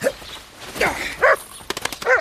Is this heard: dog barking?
yes